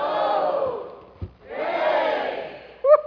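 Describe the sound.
An audience split into two sides shouts as loud as it can in two long, sustained roars separated by a brief lull, with a single voice cutting in at the end.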